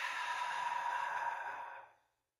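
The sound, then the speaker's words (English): A long, soft, cleansing exhale from a relaxation breathing exercise, a quiet, steady airy rush that holds evenly for about two seconds before tapering off to silence. “take a nice, deep, cleansing breath in. And relax into the exhale.”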